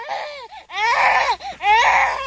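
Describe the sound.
A voice imitates whining and crying: a few drawn-out, nasal wails that bend up and down in pitch, separated by short breaths, heard on its own.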